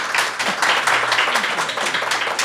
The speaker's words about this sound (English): Brigitte Madrian, thank you so much. Big hand for Brigitte.